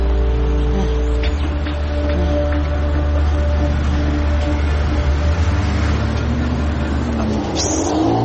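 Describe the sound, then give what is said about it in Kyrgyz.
A city bus drives through congested morning traffic, its engine a constant low rumble with a broad mechanical hum that stays steady throughout. “бул өзү ошо эртең менен кетип атканда кээ бир автобустар бош болот кээ бир автобустар эме болот да аябай тыгын болот анан бүгүнкү повезло азыр отуруп баратабыз”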